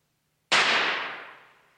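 A single pistol gunshot cracks out sharply after a moment of silence, then its bright, noisy tail fades steadily over about a second.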